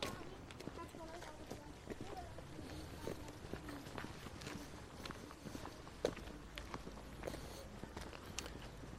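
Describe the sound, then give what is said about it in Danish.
Footsteps walk along a path dug through the Vestvolden rampart, a steady run of many soft crunching steps with irregular spacing that stays even in loudness throughout. “Vi er så ved at gå igennem Vestvolden af en sti. Det vil sige, at der er blevet gravet en, øh, nogle stier igennem selve volden.”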